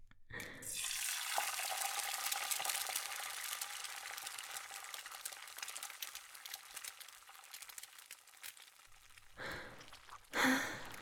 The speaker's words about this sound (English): Get something on the griddle before I start ingesting your cooking utensils.